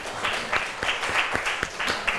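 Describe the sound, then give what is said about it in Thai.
A classroom gives a classmate a round of applause, with many soft hand claps in a steady patter that lasts a couple of seconds. “ขอยังปรบมือให้เพื่อนหน่อยครับ”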